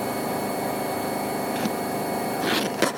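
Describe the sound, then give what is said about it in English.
An old machine running at full spin in a kitchen gives a loud, steady whirring drone with a constant hum, ending with a couple of brief clicks. “This machine is excellent. That is full spin.”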